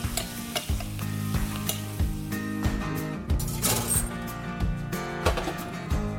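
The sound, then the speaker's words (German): Hot aromatic butter sizzles steadily as it is spooned over meat with fresh thyme, with repeated stirring and basting strokes over a continuous frying hiss and faint steady tones. “So, mit da rein und ein bisschen frischen Thymian. Ich übergieße das jetzt mit der Butter, die richtig schön aromatisch ist.”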